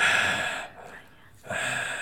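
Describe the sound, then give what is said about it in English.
Breathing straight into a microphone from a face resting on it produces two loud, hissing gusts of breath with a quieter stretch between them. “And then I breathe into it.”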